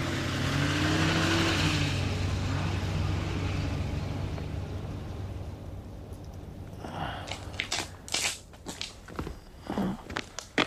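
A car drives off, its low engine rumble steady at first and then gradually fading away. Scattered faint knocks and clicks follow in the quiet that remains.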